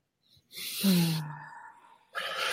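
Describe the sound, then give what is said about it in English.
A deep breath taken together by a group, heard as a breathy rush that turns into a low voiced sigh. Another breath begins near the end. No words are spoken. “maybe we can all collectively just take one deep breath in honor of that”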